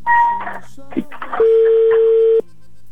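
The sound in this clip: A telephone being dialed and then ringing: a short dialing beep comes first, then a voice talks, then a steady electronic ringback tone sounds for about a second before cutting off.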